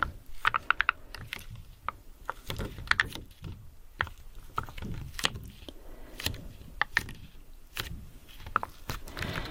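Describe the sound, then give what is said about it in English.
Rows of slightly 3D smiley stickers make an odd, clicky crackle. Many soft, irregular taps and scratchy ticks scatter throughout, quiet and uneven in rhythm. “The stickers are slightly 3D, which I think is why they make a weird sound.”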